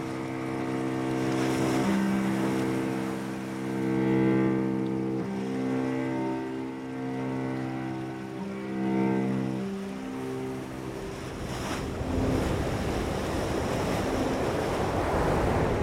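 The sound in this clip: Sea waves wash continuously at the seaside in Etel, a broad rushing swell that surges more strongly near the end, with a steady low droning tone running underneath.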